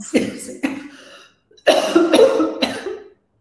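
Coughs from spice caught in the throat: a few harsh, loud coughing bursts with throat clearing, in two groups split by a short pause.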